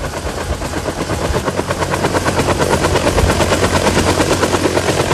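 Helicopter rotor blades thud in a rapid, even rhythm, loud and steady throughout, with the level building slightly over the first second.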